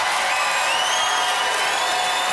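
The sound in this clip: Audience applause and cheering used as a vote for a contestant in a live debate show: a steady, dense wash of clapping that stays even throughout.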